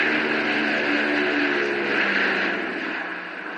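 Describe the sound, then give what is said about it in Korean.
Droning propeller engines of fifteen C-54 Skymaster transport planes approach Gimpo Airport in December 1950. The deep roar holds steady and dense, easing slightly toward the end. “멀리 공중에서 웅장한 프로펠러 소리가 들리기 시작했습니다.”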